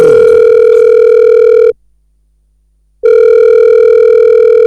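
Electronic telephone ringing for a call into a studio: a loud, steady tone breaks off for just over a second of silence, then sounds again.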